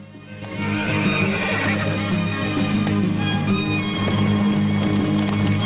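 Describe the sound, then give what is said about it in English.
Horses pulling a coach across a flat green plain, with hooves clopping and a horse whinnying over a steady tonal backdrop; the sound fades in quickly, then stays full and fairly loud throughout. “The horses travel beneath an amber dusk sky. It's daytime again. The coach moves across a flat green plain.”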